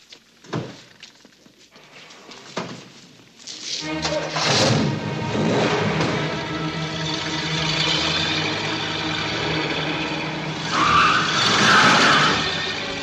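A modified car takes off with a switch-triggered pressure boost, its engine surging into a loud, sustained roar with a high tire squeal near the end, after a few quiet knocks at the start.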